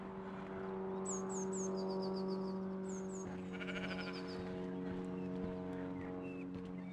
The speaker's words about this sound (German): Und ein Schaf.